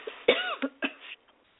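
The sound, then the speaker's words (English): Three sharp coughs from a person with a lingering cough aggravated by dust: harsh, throaty bursts come close together, then trail off into quiet, with no talk. “But I have raised so much dust that that nasty cough I've had has come back.”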